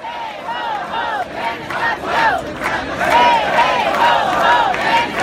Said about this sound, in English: So some sound there from protests.